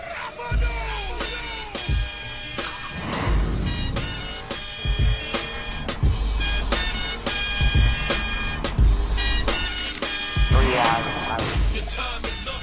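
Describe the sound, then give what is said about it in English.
A Toyota TV commercial for the new Camry plays, with loud music carrying heavy, punchy bass hits, bright layered tones and sweeping effects throughout. “Here's that Toyota commercial.”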